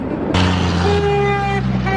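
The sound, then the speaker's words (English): Car horns honking on a crowded roadway, with loud, sustained, overlapping horn blasts that shift in pitch over a steady rumble of traffic. “People honking.”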